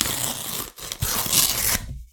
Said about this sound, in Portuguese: Sim, eu tô com medo inclusive de abrir e rasgar a carta, mas vamos lá.